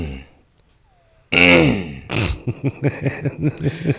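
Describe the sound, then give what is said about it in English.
A man with a sore, congested voice clears his throat once in a loud, rough, gravelly rumble that comes after near silence. Rhythmic voiced sounds follow. “I'm still clearing out my throat a little bit as well.”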